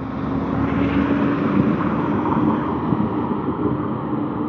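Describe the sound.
A garbage truck rumbles outside on a partly cloudy morning in Greeley, Colorado, a steady, dense engine drone with no distinct separate events.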